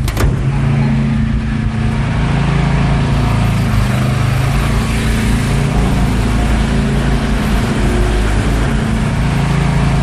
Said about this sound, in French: c'est le bruit des générateurs. Donc ça, c'est un générateur diesel.